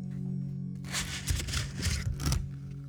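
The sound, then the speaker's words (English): Paper cupcake liners crinkle and rustle while being handled, giving a soft run of crackly, papery rustles that lasts about a second and a half over a steady low hum. “What is that? That is the sound of paper cupcake papers.”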